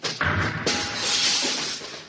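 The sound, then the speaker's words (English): Glass shattering as a spaceship viewport is smashed: a sharp crash, then a second impact and a loud, sustained spray of breaking, tinkling debris. “I'm going to smash the viewport.”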